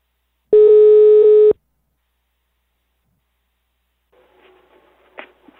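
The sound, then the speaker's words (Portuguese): A telephone ringback tone while a call is being placed: a single steady, pitched tone about one second long, followed by near silence with faint scattered noises. “Vou ligar pra Gisalva.”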